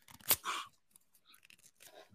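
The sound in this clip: A trading card, an insert checklist card, being ripped up, heard as one sharp, quick tearing rip and a short papery rasp. Faint scattered rustles and crinkles follow, all fairly quiet.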